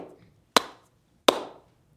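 Sharp ceremonial hand claps closing a Fijian welcome ceremony: two crisp, loud claps about three-quarters of a second apart, each with a brief ringing tail, otherwise quiet.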